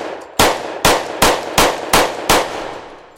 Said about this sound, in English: That's the sound of a Glock Model 22, a 40-caliber semi-automatic.